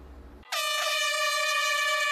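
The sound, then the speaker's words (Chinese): A single air-horn blast signals the start of a science orienteering race at an ecological park. After brief low background rumble, one loud, steady, sustained tone with rich harmonics holds to the end without wavering. “5月30号上午9点，随着一声鸣笛，科普定向挑战赛正式开跑。”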